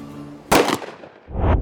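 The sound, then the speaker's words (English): A single gunshot fired straight up into the air gives a sharp, loud crack that dies away quickly. A second, lower rumbling burst follows shortly after. “I cocked my gun, pointed it straight up in the air. My gunshot would alert Edith to finish the job and alert the others to attack.”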